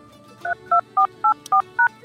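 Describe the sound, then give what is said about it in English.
Telephone keypad tones as a passcode is entered into a phone line: six short, evenly spaced beeps, each a clean two-tone pitch, standing out over a faint background hum. “Please enter your passcode followed by the pound sign.”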